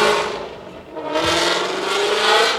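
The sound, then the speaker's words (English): A Ford Mustang's engine roars as the car accelerates past. The loud, throaty roar dips briefly, then swells back up into a strong, sustained rush that peaks near the end. “He saw us over here and accelerated. He drives a Mustang.”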